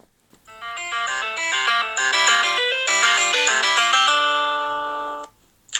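Telephone ringtone plays a bright electronic melody of quick stepping notes at steady loudness, settles into a held chord, then stops with a short click.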